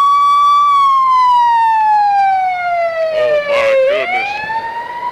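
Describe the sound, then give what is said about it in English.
Ambulance siren passing by: a loud, steady electronic wail whose pitch slides slowly downward, then climbs again near the end, with rumbling traffic noise underneath and no talking. “Now, hold on, we got a little ambulance passing through here.”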